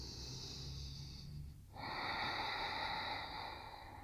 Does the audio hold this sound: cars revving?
no